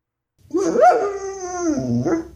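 A dog whines pitifully in one drawn-out, nasal cry. Its pitch jumps up briefly, sags into a long sliding tone, then lifts again at the end. The dog is heard alone.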